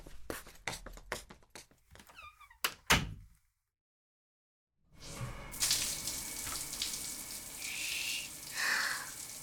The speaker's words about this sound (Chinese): 我要去洗澡